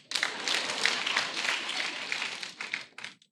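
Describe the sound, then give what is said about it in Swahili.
Audience applause for a woman, a dense wash of clapping that holds steady for about two and a half seconds before thinning out and fading. “makofi kwa mama”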